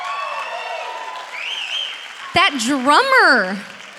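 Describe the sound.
A church audience applauds the band during a morning service, giving a steady wash of clapping with whooping, cheering voices that rise and fall over it, loudest near the end.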